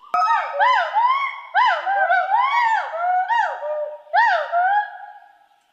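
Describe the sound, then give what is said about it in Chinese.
Gaoligong hoolock gibbons call in chorus overhead, sounding a few bursts of loud, harmonic whooping hoots, each swooping up and down in pitch, with short pauses between phrases. “现在长臂猿在我们的正头顶，然后现在是合唱是吧？ 对，合唱。 他们的声音是呜呼呼这样的这种声音。”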